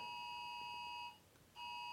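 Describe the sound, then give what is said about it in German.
Electronic beeping, faint and steady: a continuous high tone that cuts out briefly just past the middle, then resumes. “Irgendwo piept's. Ist das bei dir oder bei mir? Das ist bei dir.”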